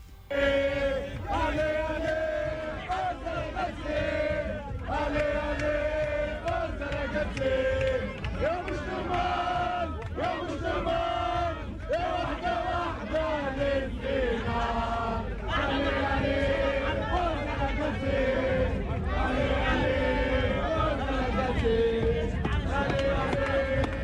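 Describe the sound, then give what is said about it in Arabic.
Tunisian fans chant and cheer at the national football team's hotel, a dense, loud crowd roar with rhythmic shouted chants that continue throughout. “هات نسمعوا الأجواء كيفاش كانت البارح في مقر إقامة المنتخب.”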